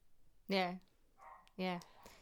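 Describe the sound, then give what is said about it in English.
Two loud, sharp barks from a rowdy female dog having a meltdown in the background, about a second apart, with a quieter stretch between them. “If you can hear dogs in the background, I'm sorry. My dog's decided to have a meltdown. And she's quite loud.”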